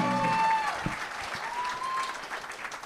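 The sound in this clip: An audience applauds at a live comedy show, loud at first and then easing, with a whistle early on.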